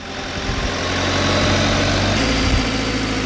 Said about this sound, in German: Auf etwa 11 Meter fährt Georg Fiedler im Hubwagen zum Storchennest hinauf.